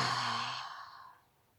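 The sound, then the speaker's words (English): A deep exhale is voiced as a breathy 'ha', strong at the start and then fading away to near silence within about a second. “Taking a deep breath in, exhaling with a ha.”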